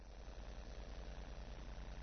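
A motorcycle engine idling, a steady low throbbing hum with a fast, even pulse that holds at the same level throughout, with no voices.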